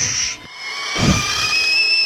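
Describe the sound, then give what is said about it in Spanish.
Steam leaking from a pressure cooker makes a steady, loud hiss with thin high whistling tones. The hiss dips briefly, then swells again and holds. “Ahí está perdiendo la olla a presión.”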